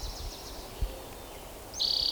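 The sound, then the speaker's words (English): An orange-crowned warbler sings in the background: faint high chirps at first, then a brighter, louder high-pitched trill near the end over quiet ambience. “Orange crown warbler in the background.”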